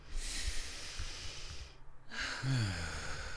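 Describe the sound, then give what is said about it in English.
A deep breath is drawn in as a soft, airy rush lasting nearly two seconds during a guided voice exercise. After a brief pause, a longer exhale follows with a faint voiced hum near its start. “So you can just take a breath right now. Let's take a breath.”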